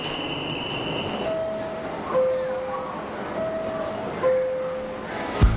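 A train at a railway station gives a steady rolling rumble, with high sustained wheel squeals rising and cutting out a few times and a sharp metallic clank at the end.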